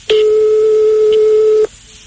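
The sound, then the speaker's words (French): A telephone ringing tone sounds after a home number is dialed: one steady, mid-pitched electronic tone lasting about a second and a half, then silence. “Donc, on va appeler chez lui.”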